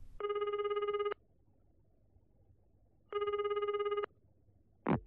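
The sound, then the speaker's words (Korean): A telephone rings in an apartment: two loud, trilling rings, each about a second long, separated by a pause of a few seconds. A brief sharp sound follows at the very end. “따르르릉.”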